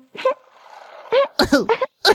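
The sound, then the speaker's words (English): A sick puppy with a sore throat coughs inside a kennel: short, hoarse, voiced bursts, a single cough, then a pause, then a quick run of several more. “And inside, someone's coughing. It's a puppy. The little puppy has a sore throat,”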